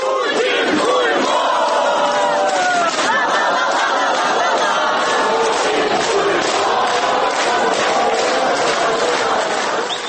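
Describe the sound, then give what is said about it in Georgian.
Ukrainians angered by Russian aggression chant against Putin in a large crowd, loud, sustained shouting that takes on a rhythmic, repeated pulse partway through. “მოისმენთ, როგორც რუსეთის აგრესიით გაჯავრებული უკრაინელების შეძახილებს.”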